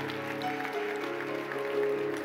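A church audience gives steady, continuous applause to welcome the online church family during a service, with soft sustained music beneath.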